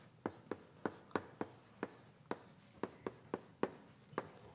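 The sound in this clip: Writing a model out on a board, heard as many quick taps and short strokes in an uneven, brisk rhythm with no talking.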